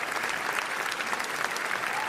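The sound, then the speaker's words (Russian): An audience at a film premiere at the Cannes Film Festival applauds in a long ovation, with dense, steady clapping that stays loud and even throughout. “Зрители встретили ленту длительными овациями.”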